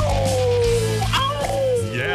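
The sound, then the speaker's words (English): A gold miner imitates a wolf howl with a long, sustained voiced tone that slowly falls in pitch. It is heard over loud, busy background noise. “That is a gold mining howl right there.”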